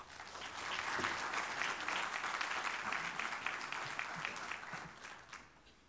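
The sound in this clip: Church audience applause welcoming a speaker who is about to share his story, a soft, even wash of many hands clapping that swells, holds for several seconds, and then tapers off.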